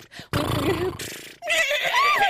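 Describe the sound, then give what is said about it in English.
A horse neighing: a loud, shaky whinny that breaks off briefly, then returns as a higher, wavering cry. “What kind of horse is that?”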